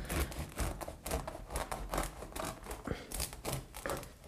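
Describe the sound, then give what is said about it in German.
A bread knife saws through a loaf of bread, cutting slices for a sandwich: many scratchy, rasping strokes in a steady back-and-forth rhythm. “Wir greifen zum Brot und zu unserem Brotmesser und schneiden uns mal zwei hübsche Scheiben Brot runter.”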